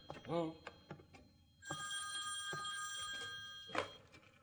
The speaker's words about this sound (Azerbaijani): Telefon, mən götürərəm.